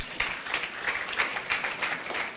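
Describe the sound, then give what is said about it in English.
An audience clapping, a steady patter of many hands held at an even level with no voices over it. “Can you clap for him for bringing us”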